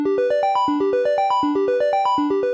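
Triangle wave tone from a Moog synthesizer, playing many short, evenly spaced notes in repeating rising runs, each with a soft, hollow, flute-like timbre at a steady, fairly loud level.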